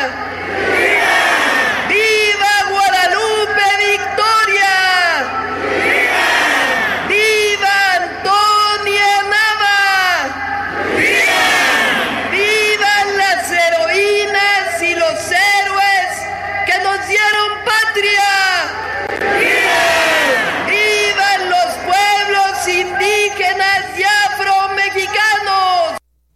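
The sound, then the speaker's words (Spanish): Rallying cries shouted in Spanish at a Mexican patriotic ceremony honoring independence heroes. A single voice calls out and a large crowd roars back in repeated loud waves, with the shouting continuous throughout. “Vamos a escucharla. ¡Viva Gertrudis Bocanegra!”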